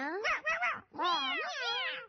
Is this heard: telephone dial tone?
no